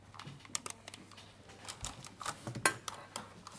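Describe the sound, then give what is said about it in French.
A spoon smooths batter in a glass dish, giving faint, scattered clinks and soft scrapes with a few sharper taps against the glass. “Le dos de la cuillère, en fait, faut pour que ce soit assez régulier, la répartition de la pâte.”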